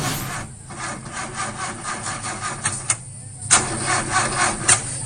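An old car's engine fails to start: the starter cranks in a rhythmic, gritty churn. The cranking pauses briefly twice, resumes, and the engine never catches.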